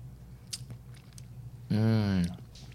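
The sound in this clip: Chewing on sour blue raspberry gummies, with soft, quiet, wet mouth sounds followed by a brief voiced hum near the end.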